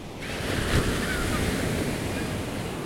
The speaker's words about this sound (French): Finalement, une vague nous rejette sur le rivage.